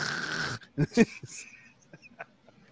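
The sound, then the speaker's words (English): A person imitates snoring, starting with a long raspy, breathy rattle, then a few short loud snorts and wheezy bursts of different character, with no talk. “the crazy part about it, I heard three different kind of snores”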